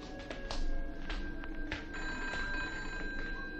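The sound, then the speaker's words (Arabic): A telephone bell ringing at night, repeating in steady bursts of bright metallic trilling over a constant background hiss, with no voices. “ده الواد محمد بتاع التليفون نايم والتليفون بيضرب. ما تيجي نشوف مين.”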